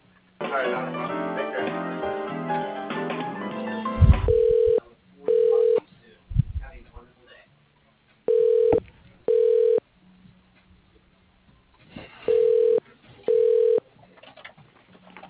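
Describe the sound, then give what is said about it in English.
Telephone ringing while a call is transferred: after a couple of dull thuds, three pairs of short electronic ring tones repeat at an even pace, with quiet gaps between each pair. “So please wait while I transfer your call.”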